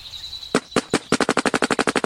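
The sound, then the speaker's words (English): Video-game gunfire: a few separate sharp shots, then a rapid, evenly spaced burst of many loud shots like an automatic weapon, preceded by a thin high tone. “Shoot. Shoot. You fucking shoot. I'm saving my ammo.”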